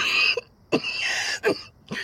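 A man coughs in a few harsh, raspy bursts separated by brief pauses, with no speech.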